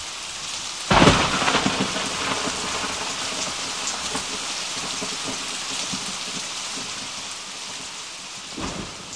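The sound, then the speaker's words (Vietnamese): Heavy rain pours steadily while two cracks of thunder break through, a loud sharp clap near the start and a fainter one near the end, with the rumble fading into the constant hiss of rainfall. “Hôm nay thấy sấm giang chớp giật thì ai nấy đều quỳ cả xuống”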